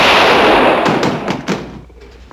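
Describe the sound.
Gunshots ring out in an Old West duel: a loud burst of noise followed by a few sharp cracks in quick succession that fade into quiet.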